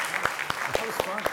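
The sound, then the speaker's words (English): Audience applause welcoming a guest: a short burst of steady, rhythmic claps mixed with talking voices. “Can we give him a warm hand? Can we do that? All right. Thank you. Welcome.”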